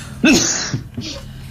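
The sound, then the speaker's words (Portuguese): An allergic cough, loud and alone: one strong, harsh burst followed by a couple of shorter, weaker coughs. “Peço-me imensa desculpa, mas esta minha proverbial tosse alérgica prega-me destas partidas”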